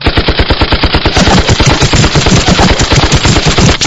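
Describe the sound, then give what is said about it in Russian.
A heavy-calibre machine gun fires one sustained burst of rapid, evenly spaced, loud thudding shots for about four seconds. No voices are heard. “Но в этот момент по нам ударила крупнокалиберная очередь.”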